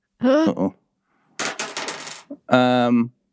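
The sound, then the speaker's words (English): A six-sided die is rolled, giving a burst of quick rattling clatter that lasts under a second, with people talking just before and after. “Adam, can you roll me a D6? This is not a spooky success, to be clear. Oh, okay. This is just, I need a D6 because you dropped something into your bag and I got to remember what happens later.”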